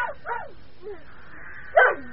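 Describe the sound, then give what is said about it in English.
A dog barks by a house's front door under a tree: a few short, faint yips, then one louder, sharper bark near the end. “Yes, Timmy was by the front door, barking under a tree there.”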